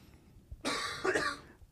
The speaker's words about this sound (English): Damn, he just coughed. Yep, his lung coughed.